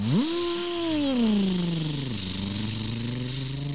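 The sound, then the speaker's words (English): Dirt bikes take off with a smooth buzzing engine drone that climbs quickly in pitch, slides gradually lower, then dips and levels out into a steady hum. “As Waverly and Sullivan took off in their dirt bikes, it actually scared the bunnies.”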